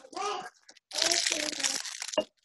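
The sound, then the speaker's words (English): Crinkling of a granola bar wrapper being opened: a short noisy crackle lasting about a second, preceded by a brief voiced sound. “granola bar. All right, is that chewing? No, that was opening again.”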